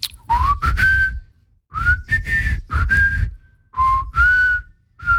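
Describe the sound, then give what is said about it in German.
A man whistles a tune in short melodic phrases. The clear, fairly high notes slide and bend, separated by brief pauses. The whistling is moderately loud and heard alone, with breathy onsets. “kannst du eigentlich gut pfeifen? Natürlich, soll ich jetzt mal.”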